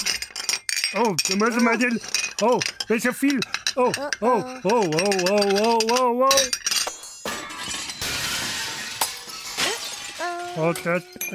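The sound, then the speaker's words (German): Juggling plates fall and shatter during a stage juggling act with a crash and clatter of breaking pieces. A loud, animated voice talks over the scene. “das ist ja runtergefallen. Ja, jetzt ist alles runtergefallen, alles in Scherben.”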